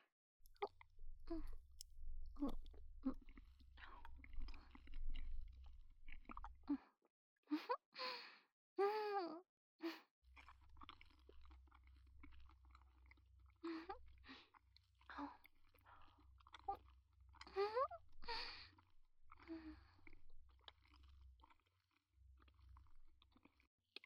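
Eating and chewing food dressed in a sweet sauce: many soft, wet, squishy chews and bites in irregular bursts over a low steady hum, with a few audible breaths or sighs between mouthfuls. No one speaks.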